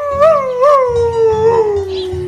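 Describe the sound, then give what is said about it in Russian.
A wolf howls in pain after birdshot strikes its tail. The loud tonal wail opens with two short rising cries, then stretches into one long howl that sinks steadily in pitch. “Взвыл волк от боли и помчался без оглядки.”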